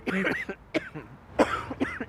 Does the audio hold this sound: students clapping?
no